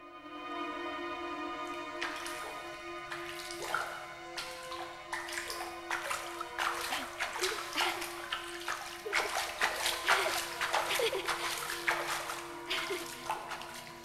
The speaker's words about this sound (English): The girl crouches down and gently splashes water towards Betsy